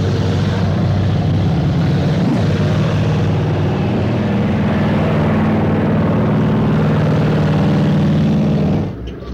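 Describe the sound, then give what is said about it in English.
Propeller aeroplane just in from Jersey taxiing along the runway: a loud, steady engine drone with a low humming tone that holds evenly throughout, then drops away abruptly near the end. “Just taxiing along, the taxiing along the runway.”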